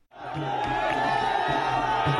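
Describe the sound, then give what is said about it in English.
Hundreds of jubilant supporters cheer and whoop as a Cambodian activist and independent radio station owner is released from Prasar prison in Phnom Penh. The crowd noise is loud and sustained, rising in at the start and holding steady. “Hundreds of jubilant supporters cheered Mom Sanando after his release from Phnom Penh's Prasar prison.”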